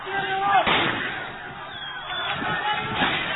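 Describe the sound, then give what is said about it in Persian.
Gunfire at a police station in Oshnavieh: a few sharp, loud bangs stand out against a constant rough, noisy background. “کلانتری اشنویه، کلانتری اشنویه، تیراندازی. این تیراندازی هایی که قبل از اینکه مردم بگیرن کلانتری رو،”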